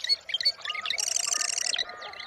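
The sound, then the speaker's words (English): Wilson's snipe calling: a few high, thin chirps, then a rapid run of evenly pulsed high notes, followed by a fainter trailing call. “And a Wilson snipe.”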